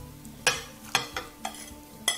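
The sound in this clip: Stirring five eggs into caramelized onion and 800 grams of potato: a few scraping strokes of a utensil against the bowl or pan, spaced irregularly, each a short, bright swish over a quiet background.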